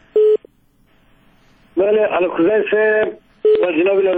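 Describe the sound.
Telephone tones mark a call connecting on a radio phone-in show. Two short, steady beeps are each followed by people talking.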